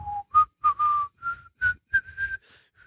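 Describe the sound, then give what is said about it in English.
A person whistles the tune from a Corona beer commercial: a short, clear melody of several notes that steps gradually upward in pitch. It is fairly soft and heard alone, with no talk. “the Corona ads, where it just has the big single palm tree with colored lights on the top, and you know you have the guy whistling,”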